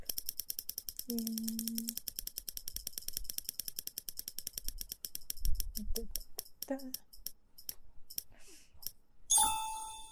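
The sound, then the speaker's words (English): A prize wheel spins with rapid, even clicks that gradually slow and spread apart until it stops, then a short bright chime rings. Brief voice sounds come under the early clicking. “We're going to spin the wheel, and then whatever it lands on, you'll be able to do.”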